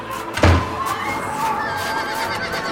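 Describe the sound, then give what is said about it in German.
A horse whinnies: a brown horse hitched to a small one-axle carriage. A loud burst near the start gives way to a steady, textured rumble that lasts to the end. “Das ist Harriman dort auf der Droschke. Das schaffen wir nicht. Los, Watson. Wir nehmen diese Kutsche hier.”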